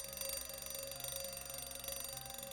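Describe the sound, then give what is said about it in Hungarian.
An alarm clock buzzes steadily, a continuous rattling, ringing tone with regular pulsing throughout, fairly faint and with no voices. “Ki berreg? Én, vagyis a Vekker.”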